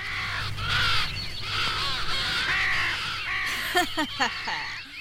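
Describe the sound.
A crow caws a few harsh, rasping times toward the end, over continuous talking.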